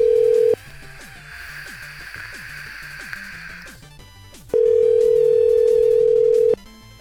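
Telephone tones while calling to leave a voicemail: a steady mid-pitched tone opens, gives way to a busier, fluttering stretch, then the steady tone returns and holds for about two seconds.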